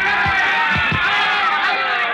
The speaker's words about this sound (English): The two young heavyweights stand toe-to-toe in the center of the ring, the thud of their punches echoing dully above the roar of the crowd.